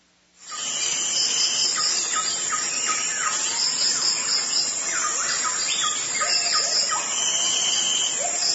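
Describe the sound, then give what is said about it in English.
Rainforest soundscape: a steady, loud high-pitched insect drone throughout, with bird calls and bursts of repeated rising gibbon whoops layered over it. “And you can hear the whoop of the gibbons in the bottom.”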